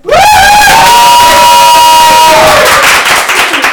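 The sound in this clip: Studio audience cheering and whooping at an anniversary show, loud and dense from start to finish, with a long sustained whoop held over the crowd noise before it eases slightly toward the end.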